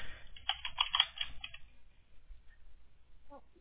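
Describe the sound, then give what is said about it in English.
Rapid typing on a computer keyboard while entering details into an online form: a dense run of quick, bright key clicks that thins out and fades to a few faint taps. “so let me go ahead and type this in here.”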